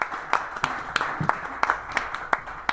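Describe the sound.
Applause from an audience at a live performance, a steady wash of clapping with many sharper individual claps standing out at an irregular pace.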